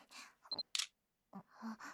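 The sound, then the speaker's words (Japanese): Camera shutter firing as a photo is taken: two quick mechanical clicks close together, fairly faint, framed by soft breathy sounds before and after. “写真撮られた。最低。”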